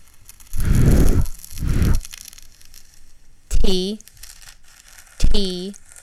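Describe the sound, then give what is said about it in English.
A cassette tape and its unlabeled plastic case are handled, giving two longer crinkling, scraping rustles followed by two shorter, sharper clattering bursts, all fairly loud and close. “It's a cassette tape. There's no label on the case, but there's something written on the tape itself in marker.”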